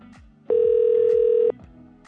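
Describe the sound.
A telephone call is placed as a single steady electronic tone lasts about one second. It sits over a faint, continuous background sound.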